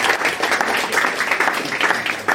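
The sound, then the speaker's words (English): Audience round of applause after judges give their scores on a competition show: dense, steady clapping fills the whole stretch at an even loudness, with no voices over it. “Round of applause.”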